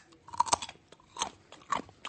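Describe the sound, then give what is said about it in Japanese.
Crunching bites of raw black carrot: a few crisp, loud crunches spaced apart, each a short snapping burst of chewing with quiet gaps between and no talk. “今はじゃあ黒人参をお召し上がりいただきましょう。”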